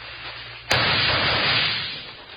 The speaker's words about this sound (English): Now start shooting.